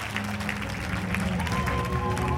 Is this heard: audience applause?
yes

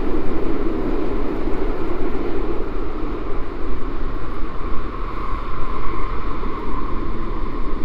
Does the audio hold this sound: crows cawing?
no

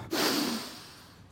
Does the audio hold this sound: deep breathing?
yes

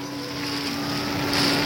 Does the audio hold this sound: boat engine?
yes

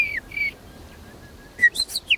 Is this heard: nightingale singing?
yes

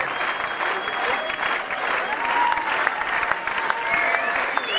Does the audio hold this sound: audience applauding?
yes

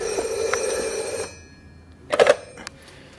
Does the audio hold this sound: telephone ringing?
yes

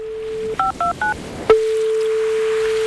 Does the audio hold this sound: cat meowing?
no

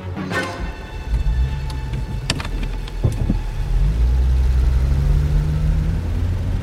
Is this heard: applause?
no

